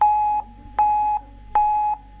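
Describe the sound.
Three evenly spaced electronic beeps sound an alert for an urgent incoming message. Each is a steady mid-pitched tone of about half a second, separated by short silent gaps, with no voices.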